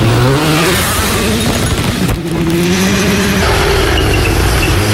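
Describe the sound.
A car engine is held flat out in sixth gear through a corner, giving a loud, steady high-revving drone whose pitch climbs briefly and then holds nearly level.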